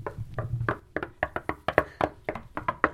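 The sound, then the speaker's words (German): Knocking on the door of an earth burrow, a quick run of many light, irregular taps, faint and sharp, with short pauses between the hits. “Als Ela und Alo bei ihren Verwandten klopfen,”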